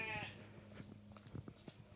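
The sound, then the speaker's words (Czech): A sheep bleats in a small roadside pen that holds two sheep and a goat. One short, quiet bleat opens the moment, followed by faint, scattered soft knocks and rustles. “tadyhle ohrádka s ovcema. Oni tu mají snad úplně všechno. Dvě ovce, jednu kozu.”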